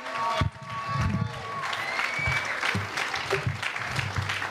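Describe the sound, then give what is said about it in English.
An audience at a comedy club applauds, with steady dense clapping and some cheering at a moderate level throughout. “please put your hands together from St. Louis, the Fry Man. Get loud for him.”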